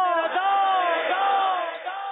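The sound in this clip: A crowd shouts back in unison in response to an Islamic slogan, a loud, sustained chorus of voices holding a long, resonant cry with slight wavering in pitch.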